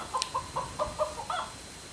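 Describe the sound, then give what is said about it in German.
Chickens clucking: several short, nasal clucks in an uneven, bouncy rhythm, fairly soft over a steady background hiss. “Und das sind Hühner. Die findest du immer witzig, ne?”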